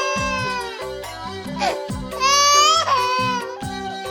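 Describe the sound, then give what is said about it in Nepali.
A hungry baby cries in high, wavering wails that swell and dip, loudest near the middle, with sobbing breaks between the cries. “ए त्यहाँ जाऊ त, बच्चा रोए जस्तो छ। नरोस् पनि कसरी, खान केही पाएको छैन।”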